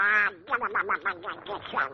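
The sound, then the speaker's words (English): A duck quacks in a quick, chattering run of many short nasal calls, opened by one longer call, loud and with no other sound around it. “He's a duck.”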